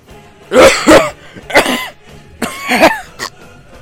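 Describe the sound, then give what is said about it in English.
Harsh, hacking coughs from a man choking up lots of smoke after casting a giant fireball: a loud, ragged fit of several rasping bursts separated by short gaps. “He immediately starts coughing up smoke. Lots of it.”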